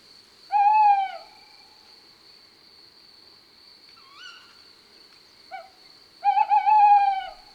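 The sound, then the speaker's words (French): A male tawny owl gives its two-part hooting call: a long hoot, a pause with a faint wavering note, then a short hoot and a long quavering hoot. A steady high insect trill runs continuously beneath the calls. “Son chant est en deux parties. D'abord un « ouh » et puis un silence et un « ouh » « ouh » et c'est toujours pareil.”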